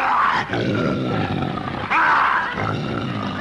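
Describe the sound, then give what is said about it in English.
A captive lion roars in a few deep, rumbling, sustained bursts. The roars are loud and gravelly, broken by short dips between them. “I'd like to call your attention to Rex. Rex, the king of the jungle. The most ferocious lion in captivity.”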